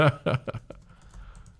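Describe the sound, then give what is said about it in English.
Typing on a computer keyboard: a quick burst of several crisp keystrokes, the first ones loudest, then fading into a quiet background. “Oh, no. I typed Beyong.”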